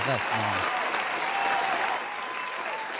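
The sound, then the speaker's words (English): Audience applause at an online music show and party, a steady soft crackle of clapping lasting about three seconds, with a brief voice at the very start and the clapping easing slightly toward the end. “So we're gonna give all these lovely people an applause, that they will keep on supporting you and all your music projects.”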